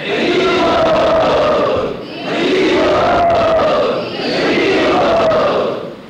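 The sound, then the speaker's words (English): A crowd calls out Hari Bol to welcome a special guest, a devotee of Srila Prabhupada. There are three loud, drawn-out chanted calls in unison, each swelling and then fading. “Let us all welcome him by saying Hari Bol.”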